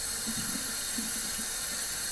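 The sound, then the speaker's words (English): Water runs steadily from a kitchen tap while lettuce is washed in the sink, a faint, even rushing hiss with soft low splashes, and no one speaking. “Nevertheless, it keeps you entertained while I'm washing lettuce.”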